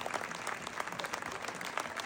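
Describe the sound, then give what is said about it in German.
Applause for a stage performer coming out at the end of a show: dense, lively clapping from many hands, moderately loud and sustained without a break. “Und jetzt kommst du da noch raus und holst dir auch deinen verdienten Applaus ab.”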